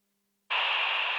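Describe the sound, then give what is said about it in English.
Dead-air static from radio station Ultra 106.5 gone off the air. Half a second of silence gives way to a steady, even hiss that holds until the end. “Hear that? That's the sound of Ultra 106.5 off the air.”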